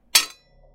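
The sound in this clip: A single sharp blow as a gun butt strikes someone's head during a struggle over a dropped gun: one loud, bright crack that decays quickly into quiet, with no voices.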